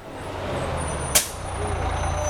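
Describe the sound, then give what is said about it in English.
A city bus pulls up with a single sharp hiss of its air brakes, a short burst that fades quickly over a steady low engine rumble. “Track 22. The bus thing.”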